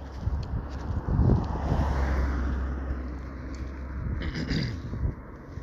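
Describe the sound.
Wind blowing into a microphone outdoors on a hill: a constant low rumble with gusts that swell and ease, loud and unbroken, with no voices.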